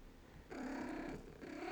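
A cat purrs softly in two stretches, a low, steady vibrating drone that breaks off briefly before resuming. Faint and alone, with no voices.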